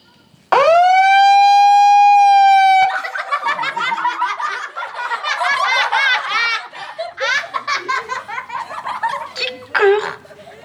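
A megaphone's alarm siren, set off by a button press, blares as a loud, steady, high electronic tone for about two seconds, then cuts off and gives way to a group of people laughing and giggling.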